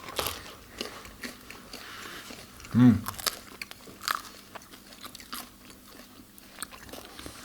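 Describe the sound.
Someone bites into a crusty sourdough loaf with a single loud crunch. Many small crackles and crumbly clicks of chewing follow, scattered at a low level before and after the bite.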